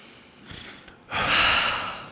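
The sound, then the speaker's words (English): A group of people taking a deep breath together: a soft, airy inhale, a brief pause, then a long, loud, breathy exhale like a shared sigh that gradually eases off. “Take a deep breath together.”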